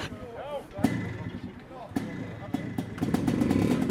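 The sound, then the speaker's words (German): Motorcycle engines being kick-started by foot, with no electric starters, at a classic enduro competition: sharp clanks and thumps from the kick levers and brief sputters, then a rough engine rumble building toward the end. “Vor den Vollgasgeschichten kommt Vollgas und davor das Antreten der Maschinen. Hier hilft keine Elektronik, hier ist Kraft im rechten Bein gefragt.”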